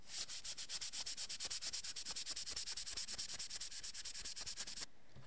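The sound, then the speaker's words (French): Lacquer varnish is rubbed and polished to remove sanding scratches: many quick, even back-and-forth strokes in a brisk steady rhythm of soft scraping. The rubbing stops abruptly near the end. “je suis en train de chauffer le vernis et d'effacer les rayures du ponçage. Donc là, on voit que ça commence à être satiné. Oui. Donc là, je vais continuer à frotter.”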